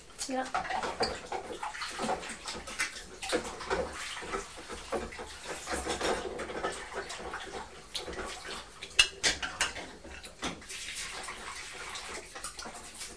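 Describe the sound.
A beaker is washed and rinsed under running water, a steady hiss of water at a constant level throughout, with small clinks and splashes as the container is handled.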